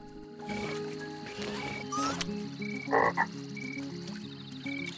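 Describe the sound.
A toad croaks by still water. Two short, raspy bursts stand out midway over a steady bed of tonal wildlife calls and insect hum.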